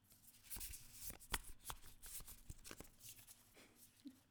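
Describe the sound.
Tarot cards from the Spacious Tarot deck being shuffled before a Major Arcana card is pulled: many quick, soft riffles, flicks and taps of card stock, faint and busy throughout.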